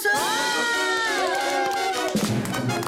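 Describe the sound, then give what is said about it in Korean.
Celebratory fanfare sound effect for a belated birthday, with loud crowd cheering, whoops and shouting over sustained bright tonal notes. “어, 그리고 살짝 늦었지만 일단 빵빠레 한번 더 가야 됩니다.”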